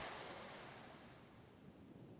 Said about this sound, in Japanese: こういう自然の海の音、風の音、こういうのもね、